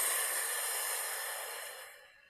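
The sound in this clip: One long, slow breath out during a guided breathing exercise, heard as a soft, airy hiss that fades away toward the end.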